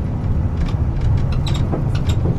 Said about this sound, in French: je vous invite en ce 22 juillet 2014 de prendre à nouveau le bus jusqu'à Sauzon, au nord de l'île.